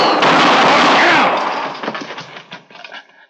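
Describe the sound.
A gunshot sound effect from a 1957 radio western drama: a loud, harsh blast that rings on before fading into a few scattered, sharp cracks and dying away.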